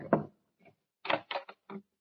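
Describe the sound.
Knocking at a door: a sharp rap, a faint tap, then a quick cluster of firm knocks, each dry and short with silence between.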